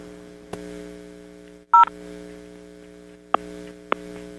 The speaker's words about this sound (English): We heard one touch tone.